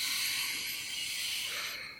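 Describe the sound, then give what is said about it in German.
A slow, deep breath taken during a guided meditation, heard as a quiet, steady airy hiss for about two seconds that thins out at the end. No talking. “Nimm noch einmal einen tiefen Atemzug und komm wieder in dein Herz.”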